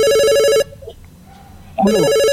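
A telephone rings with an incoming call: two loud electronic ring bursts separated by a short, quiet pause.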